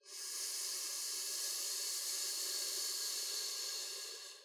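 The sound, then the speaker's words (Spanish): Breath pushed out through the teeth in a long, steady hiss during a pelvic floor breathing exercise with the muscles clenched; one continuous exhale, even in loudness, tapering at the end. “inhalando por los labios, pausando brevemente, apretando los músculos del piso pélvico y expulsando el aire por los dientes.”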